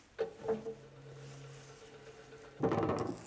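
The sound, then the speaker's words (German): A spacecraft's bomb bay hatches open as a radio play effect: a mechanical clunk, then a steady low hum with a higher droning tone held for over a second, ending in a rougher, louder rumbling burst. “Öffnet die Luken.”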